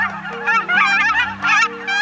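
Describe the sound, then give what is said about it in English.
A seasonal bird call: harsh, nasal honking notes repeated in quick succession, several calls running together, loud and steady with no voices. “a seasonal bird note this week on Living on Earth”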